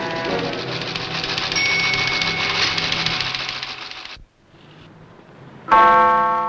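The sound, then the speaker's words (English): A teletype machine clatters as it types out a news bulletin. Dense mechanical chatter runs steadily for about four seconds, drops to a quieter stretch, then resumes in a louder burst. “Now, an operator's hands work a teletype machine. The newsflash types out on another machine.”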